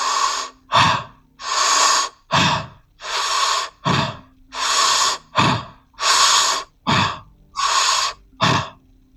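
Deep, loud breathing with long drawn-out inhales, each breath a sustained airy rush followed by a shorter one, repeating in an even rhythm over many cycles with no talk.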